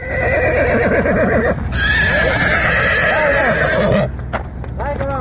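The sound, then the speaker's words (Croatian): Frightened horses being led back to their stable along a local village road after a flood, neighing and whinnying loudly and repeatedly, with clip-clopping hooves beneath the cries. “Tu sudbinu izbjegli su konji jednog gazde iz Mislođina, koje smo sreli na lokalnom putu kada su uplašeni vraćani u štalu.”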